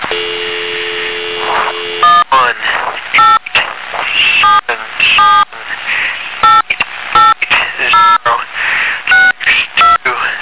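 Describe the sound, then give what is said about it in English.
A telephone dial tone holds steady for about two seconds before keypad dialing begins: a long, rapid run of short touch-tone beeps at varying pitches over ongoing background noise. “Waiting for a dial tone here.”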